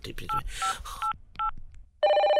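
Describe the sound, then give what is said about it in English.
Dialing a telephone number on a touch-tone phone: four short, bright tone beeps with clicks between them, then a loud, steady ringing tone that runs to the end. “Okay, let me dial. I hope I get through to him.”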